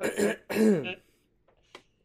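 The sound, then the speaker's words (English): Throat clearing with phlegm from someone who is also burpy, two rough, voiced guttural rasps in quick succession, then near silence with a faint brief sound near the end. “I'm sorry, I'm really burpy. And there's a lot of phlegm stuck in my throat.”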